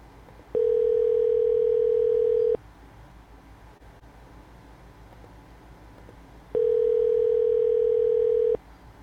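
Telephone ringback tones sound during a call that goes unanswered. There are two long, steady, low-pitched tones of about two seconds each, separated by a roughly four-second gap of faint line hiss.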